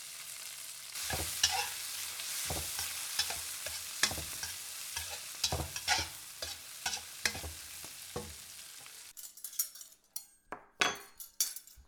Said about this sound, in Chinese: 肚子饿了？哦，妈这都去给你做饭去。